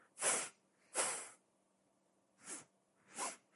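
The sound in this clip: Forceful exhalations during a yoga power-breathing exercise, heard as four sharp, breathy bursts through the nose. The first two are stronger and close together; after a pause come two softer ones.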